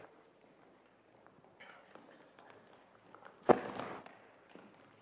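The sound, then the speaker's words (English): Children running up to the front of a church for a children's sermon: a faint patter of quick footsteps, then a louder cluster of thumping steps. “I like how you run. This is the one time you can really run in church.”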